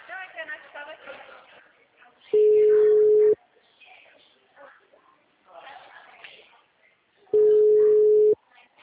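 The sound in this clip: Ringback tone of a phone call ringing through to voicemail: two steady, mid-pitched tones about one second each and five seconds apart, with people talking in Portuguese between them.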